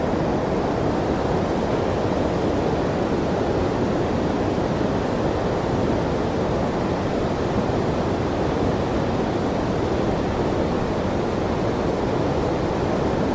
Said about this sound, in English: I'm going to take a whiz into the waterfall.